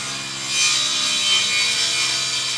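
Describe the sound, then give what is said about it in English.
Wood planks being sawn by hand in Tumbira, a village on the Rio Negro deep in the forest, to build homes: a continuous, loud, rasping stroke that swells slightly after the first moment and holds steady. “sawing wood planks to build homes”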